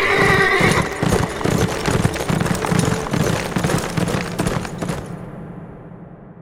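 Horses set off at a ride, their hooves pounding in a loud, dense gallop with a whinny at the start. The drumming clatter carries on steadily, then thins and fades away near the end.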